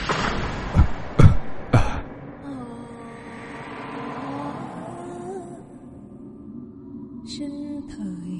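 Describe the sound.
Coughing in a rural ghost-story drama: three harsh, loud bursts in quick succession, then a low, sustained droning sound that slowly fades.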